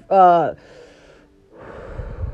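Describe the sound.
Someone takes a great big breath of fresh air. A short, loud voiced gasp with falling pitch comes first, then after a pause a longer, softer rush of breathing.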